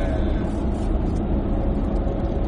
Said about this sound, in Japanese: 車めっちゃ多いね。